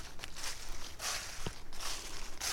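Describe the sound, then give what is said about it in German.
Soft footsteps in hiking shoes that were worn on the Camino de Santiago, a steady series of quiet, evenly spaced steps. “Ich habe gerade die Schuhe an, mit denen ich den Jakobsweg gelaufen bin. Das finde ich auch voll schön, die jetzt anzuhaben mit denen hier zu laufen auf meinem Liebesweg.”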